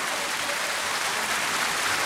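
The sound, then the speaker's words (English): A round of applause for a runner on a show: soft, even, dense clapping that continues steadily throughout without breaks. “Come on, girl. You deserve a round of applause.”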